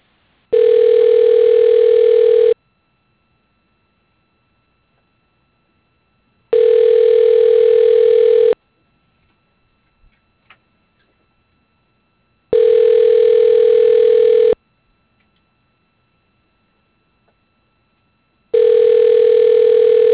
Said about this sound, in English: I'll transfer you up to his extension.